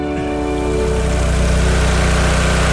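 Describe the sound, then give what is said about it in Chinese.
Steady, loud rush of water at a flooded archaeological dig being pumped out: dense continuous churning and gushing with a low, even droning hum underneath, unbroken from start to end. “季老师，三米以下简直是水下作业，这水是边抽边灌啊！”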